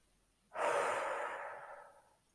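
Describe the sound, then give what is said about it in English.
One long, full exhale during a breathing exercise, a breathy rush that starts abruptly, then slowly thins and fades over about two seconds, heard alone. “simply make the exhale as long as the inhale. We'll begin with a full exhale out.”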